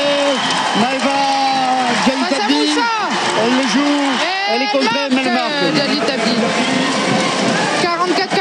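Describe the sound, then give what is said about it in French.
Crowd noise at a women's basketball game between Landes and Bourges, with fans on their feet roaring and applauding late in a one-point contest. It is a dense, steady roar with a commentator talking over it throughout. “Encore le public qui se lève. Et Céline Dumas qui leur fait signe, qui lève les bras. Fait du bruit le public.”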